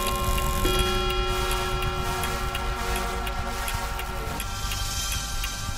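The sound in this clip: A clock ticking at midnight in a darkened chamber, its sharp, evenly spaced ticks repeating many times over a sustained tonal drone.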